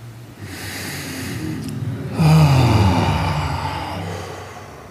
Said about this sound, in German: dann nimm Kontakt auf mit deinem Atem und atme zweimal stimmhaft und tief aus.